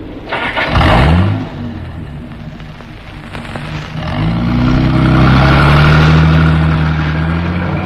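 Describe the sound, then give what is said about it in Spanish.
A vehicle engine starts with a quick cranking catch and briefly settles to a lower idle. It then revs up into a loud, rising, sustained drone as the vehicle drives off. “El teniente Harrison puso en movimiento el vehículo”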